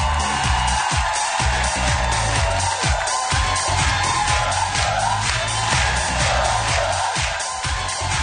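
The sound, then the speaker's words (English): A daytime talk-show studio audience cheers and whoops in a sustained, loud wash of crowd noise that stays dense and even throughout, with no pauses. “So this is Wendy Williams' audience every single day, about every 30 seconds.”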